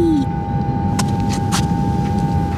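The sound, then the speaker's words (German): An elevator descending: a constant mechanical hum with a steady whining tone, broken by a couple of short clunks in the first half, then running on evenly. “Ich hole mal den Fahrstuhl. So, einsteigen. Ja, okay. So, ich bin drin. Und nach unten fahren.”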